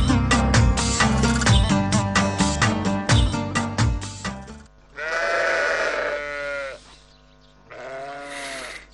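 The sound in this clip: Sheep bleating while grazing, two long, loud, wavering bleats in the second half that come after a busy stretch of other sound, with a short pause between them.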